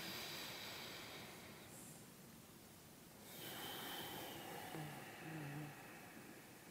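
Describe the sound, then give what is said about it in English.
A slow, deep breath taken alone in near silence: a faint, airy hiss that swells gradually and lingers as a long, soft exhale-like rush. “Let's take a good deep breath.”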